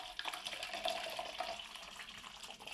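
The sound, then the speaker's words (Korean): Hot water pours in a steady, continuous splashing stream while an iron mordant bath is made up for fabric dyeing. “잘 녹았으면 물에 부어 주세요. 그리고 뜨거운 물을 부어서”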